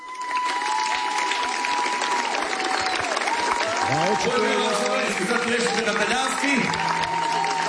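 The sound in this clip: Audience applause at a live show for a music duo, a dense, steady clatter of many hands with a voice speaking over the clapping.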